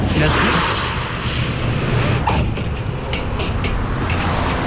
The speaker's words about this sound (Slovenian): Mađarskega sedaj pa ne, imamo, imamo bolgarski kamion. A bolgarski, bolgarski kamion?